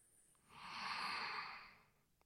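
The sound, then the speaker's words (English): A deep breath drawn in through the nose: a single soft, airy rush that swells smoothly, holds, then tapers away, quiet and heard alone. “you're going to take a deep breath in through your nose.”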